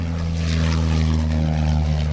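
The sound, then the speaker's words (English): A propeller aircraft engine drones loudly and steadily as the plane readies for takeoff, a constant deep hum with strong, unchanging tones throughout. “So it looks like we're getting ready to take off now.”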